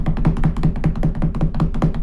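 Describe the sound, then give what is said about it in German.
Knocking sounds in a rapid, even series of dull knocks at about five per second, many evenly spaced strikes at a steady moderate loudness, with no talking. “Dann musst du klopfen.”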